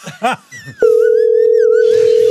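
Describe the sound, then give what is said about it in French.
Ringing tone of an outgoing telephone call to Marrakech placed from a radio control room: after a moment of brief talk, a steady single-pitched tone starts abruptly and holds evenly to the end. “On appelle en régie. Ça sonne.”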